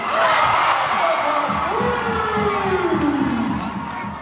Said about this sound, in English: when you hear the sounds of the lights coming on and the bounce of basketballs on hardwood floors, followed by the roar of the crowds